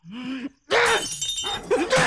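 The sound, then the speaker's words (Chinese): Household objects being smashed at home: two loud bursts of shattering and breaking, with a distressed, wailing voice heard before and between them. “妈，妈，别砸了，家里快砸光了。”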